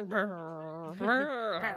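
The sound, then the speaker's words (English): A dog gives a drawn-out, tonal howling whine in two long phrases, fairly loud and alone. “So you know what makes me happy? Hearing your dogs go”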